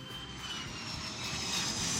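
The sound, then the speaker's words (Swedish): An airplane landing at Arlanda airport, a steady, broad jet roar that grows slightly louder toward the end. “På Arlanda 1987 är det dags för nästa steg. Chuck Berry ska landa och fansen Thomas Einarsson och Johan Hasselberg är på plats.”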